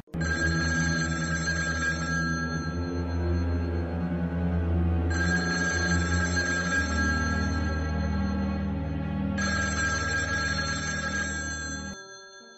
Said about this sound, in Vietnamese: Ba hồi chuông dài reo liên tục. Có người nhấc máy.